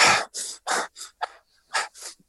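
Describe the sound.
A voice imitates gasping for air after holding the breath, with several short, breathy, hissing bursts of air in quick succession, separated by brief pauses.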